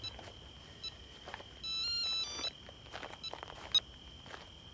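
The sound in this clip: An electronic telephone ringtone sounds as one sustained, bright, warbling burst in the middle, with a few faint beeps and scattered background clicks around it. Nobody speaks.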